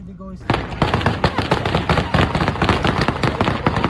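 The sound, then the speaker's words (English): Rapid bursts of gunfire from Taliban fighters firing to disperse crowds outside Kabul airport form a dense, loud, cracking rattle of many shots in quick succession. “That's the sound of the Taliban firing, purportedly to disperse crowds outside the airport.”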